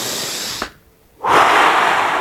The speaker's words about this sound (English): So what I do is I take a few deep breaths,